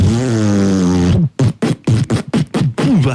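Fart: a long, low buzzing blast that slides downward in pitch, then breaks into a rapid string of short sputtering bursts.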